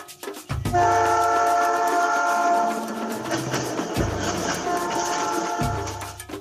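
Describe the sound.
An electric train rolls with a rumbling clatter. Loud, sustained horn blasts sound several times over it, and there is no talk.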